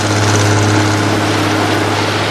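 Boat engine being eased back into neutral, a steady low droning rumble with a constant deep hum running evenly throughout, with no voices.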